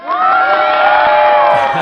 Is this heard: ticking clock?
no